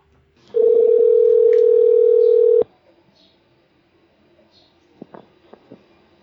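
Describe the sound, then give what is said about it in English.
Steady telephone dial tone as a call is placed. The single tone holds for about two seconds and cuts off, then after a quiet gap a few short, faint beeps follow. “here goes, dialing Paul Shippey.”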